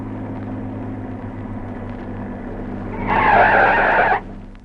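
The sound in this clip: A car's tires screech as it skids to a stop. A low engine rumble runs underneath, then a loud, harsh squeal lasts about a second and cuts off abruptly.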